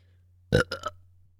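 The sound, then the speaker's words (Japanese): A woman burps after drinking draft beer: one short, loud belch followed by two smaller croaking bursts, alone and fairly faint. “ゲップ出ちゃった。おい、何見てんだよ。女だってな、ゲップぐらい出んの。”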